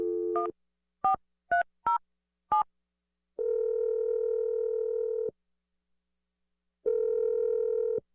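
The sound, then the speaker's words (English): A phone number being dialed: a quick run of short keypad tones at shifting pitches, followed by two long, steady ringing tones separated by a silent gap. “I'm going to dial Sky's number, and we're going to get you a second date update.”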